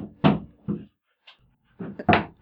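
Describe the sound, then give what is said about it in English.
A few dull thuds as an excited dog's tail knocks against a door while she walks past, short irregular knocks in two groups with a quiet gap between them. “if you heard that thunking sound, that was the dog walking by very excitedly, hitting her tail against my door.”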